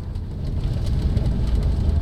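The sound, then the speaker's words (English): A car drives a bumpy, bone-jarring rural road toward a tribal village, giving a steady low engine and road rumble with constant rattling and jostling, moderately loud and without talk. “It's 25 bone-jarring miles from Chief Elmir's office to the Sirui tribal village. Our guide Marco drives while we bounce around and back.”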